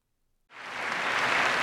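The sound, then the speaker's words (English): The Oscars audience bursts into an ovation for Stevie Wonder after a moment of silence. A dense wash of applause swells quickly and holds loud and steady. “After a 30-second ovation from the audience, Stevie Wonder gave a speech that was funny and ultimately memorable.”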